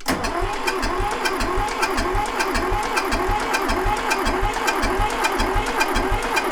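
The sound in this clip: Car engine cranked by its starter without catching, a loud, steady, rhythmic churning pulse that repeats evenly through the whole clip, with no voices.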